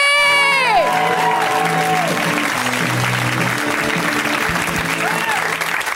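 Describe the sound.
Audience applause and cheering greet a comedian making a first appearance on a comedy show. Loud, steady clapping fills the whole stretch, with whoops over it near the start.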